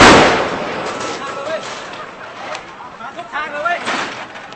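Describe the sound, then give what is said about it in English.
Gunshots fired during a street protest: a loud crack opens, followed by a few sharper reports scattered across the rest, with people talking and shouting throughout. “We're hearing shots firing.”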